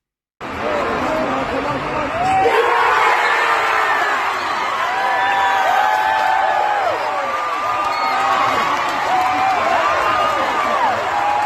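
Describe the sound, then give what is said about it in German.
A stadium crowd roars at the final penalty kick of a football shootout. Loud cheering swells after a brief lull and then surges, with high whoops and shouts over a dense, sustained roar. “der letzte Strafstoß, der klang dann folgendermaßen, zumindest aus der Sicht von Annika”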